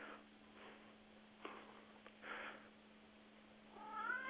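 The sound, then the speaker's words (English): Faint meowing from a house cat: a few soft, brief calls, then a longer, clearer meow at the end. “That was my cat.”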